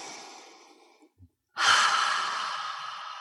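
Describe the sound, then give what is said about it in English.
A deep breath: a soft, drawn-out inhale fades away, then after a short pause with two faint clicks comes a loud, long, breathy exhale that slowly tapers off. No voices are heard. “Let's all take a breath.”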